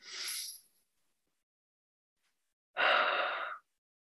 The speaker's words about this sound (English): take a nice deep healing breath.